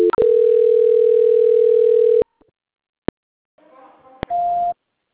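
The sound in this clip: A steady telephone line tone plays during a call transfer, holding for about two seconds before cutting off. A few sharp clicks and a short, soft noise follow, then a brief, higher-pitched beep.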